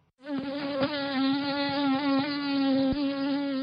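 A mosquito's wings buzz in a steady, rich, harmonic drone that starts abruptly and holds throughout with a slight waver in pitch, heard alone.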